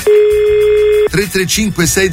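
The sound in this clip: A radio station places a telephone call to a listener: a steady, loud dial tone holds for about a second, then gives way to a run of short repeating telephone tones.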